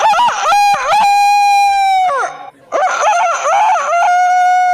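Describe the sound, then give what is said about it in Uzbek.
A person imitates a rooster that tends a flock of 40 to 70 hens and crows from 5 a.m. They give two long, loud crowing calls, each starting with short rising notes, with a brief pause between them. “Mana ertalab soat 5 dan to qorong'i tushgunga qadar tinim nimaligini bilmaydigan 40 ta, bechara yozli saratonda esa 70 ta tovuqqa o'z xizmatini ayamaydigan xo'roz ovozi.”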